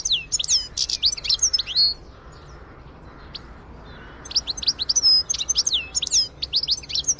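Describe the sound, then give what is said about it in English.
Birds chirp in quick bright bursts of many high tweets, then fall quiet for a couple of seconds before another lively run of rapid chirping. “Well, they're lovely birds, aren't they?”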